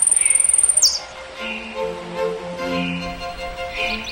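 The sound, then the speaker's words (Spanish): Goldfinch song in a forest: a rapid, even high trill opens, followed by several clear warbling calls and chirps of varying pitch, moderately loud and heard alone. “El jilguero empezó a buscarlos por todas partes. Llorando y trinando, todo el bosque resonaba con sus desesperados reclamos”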